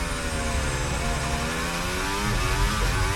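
A racing car engine screams at high revs during a flying qualifying lap: a loud, continuous buzzing drone whose pitch climbs gradually as the car accelerates, with no talk over it.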